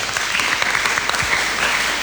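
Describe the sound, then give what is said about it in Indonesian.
Applause from an audience at a talk session on students' personal branding in Bali: dense, steady clapping that holds at an even level throughout, with no voices over it. “tepuk tangan untuk Dewa”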